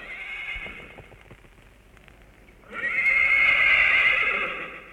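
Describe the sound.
A horse whinnies twice: a shorter neigh first, then, after a pause, a longer, louder, shrill neigh that wavers as it fades.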